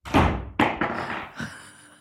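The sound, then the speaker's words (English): A doorknob falls off and thuds: four dull, hollow impacts spread over two seconds, the last one softer, with no voices. “Did your doorknob fall off?”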